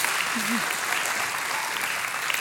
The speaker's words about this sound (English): Give him a big hand, man. Welcome, welcome home.